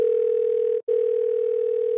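A telephone call tone: a steady, loud single-pitch hum broken once by a very brief gap partway through, then continuing unchanged.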